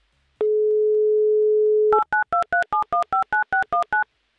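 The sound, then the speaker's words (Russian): A telephone number is dialed on a touch-tone phone. A steady dial tone sounds for about a second and a half, then gives way to a rapid run of evenly spaced two-tone keypad beeps. “Я набираю ваш номер.”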